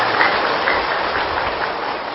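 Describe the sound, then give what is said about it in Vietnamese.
An audience applauds at a Buddhist dharma lecture. The clapping is dense, steady and loud, a continuous wash of claps with no pause and no voices. “Xin cho một tràng pháo tay khích lệ.”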